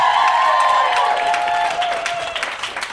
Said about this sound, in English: Right on. That was a very warm welcome from our retreaters. It is day one of our Eau Claire Run Plus Refresh Retreat.